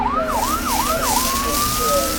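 A fire engine siren wails up and down in a few quick cycles, then holds a steady high tone. It stays loud and continuous throughout.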